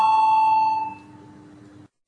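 An electric bell rings in a parliamentary chamber to call members to a vote: one sustained bright tone with ringing overtones, steady for almost two seconds before cutting off abruptly.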